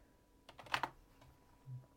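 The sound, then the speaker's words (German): Soft typing on a computer keyboard with a failing B key: a quick cluster of a few faint clicks, then a duller single tap after a short pause. “Meine verfickte B-Taste auf meiner Tastatur geht fast. Geht nicht mehr so richtig.”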